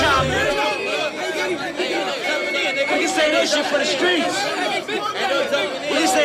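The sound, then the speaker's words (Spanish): Street crowd tumult ambience from a music track: a dense babble of many overlapping voices chattering at once, steady and fairly loud throughout. “Mezclado con un sonido ambiente como de tumulto callejero, hasta el momento en el que para la música.”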